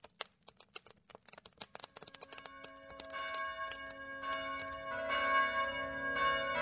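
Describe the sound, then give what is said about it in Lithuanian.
Church bells ringing on Christmas morning: many rapid, sharp strikes at first, then layered tones that ring on and swell louder toward the end. “Jau šventų kalėdų rytas, skamba varpai”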